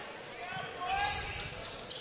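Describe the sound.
A basketball is dribbled on a gym floor during a basketball game, its bounces faint and tucked under a commentator's voice.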